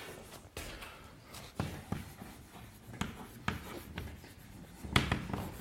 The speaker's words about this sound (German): Ich schreibe es nochmal P1 bis Pn.